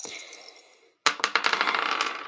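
Two six-sided dice rolled for a tabletop game clatter against a hard surface in a quick series of bright, sharp clicks that thin out and fade. A softer ringing decay comes first, then a brief silence.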